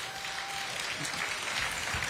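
Audience applause at a political rally, a dense, even wash of clapping that holds at constant loudness throughout the two seconds.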